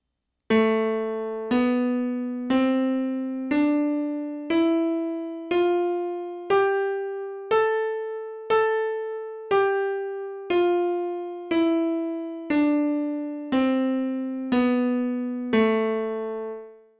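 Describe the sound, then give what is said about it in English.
A natural minor scale played with a bright, buzzy tone, as about sixteen evenly spaced notes that climb step by step and then descend back down, each note struck clearly and decaying slightly. “So the natural minor scale sounds like this.”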